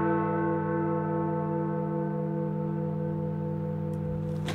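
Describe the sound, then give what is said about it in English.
A famous clock tower bell chimes in a recording, its single sustained, resonant tone rich in overtones and ringing at steady loudness throughout, with no separate strikes apparent. “most evocative bell in the world is Big Ben. A recording. It's a recording, yes”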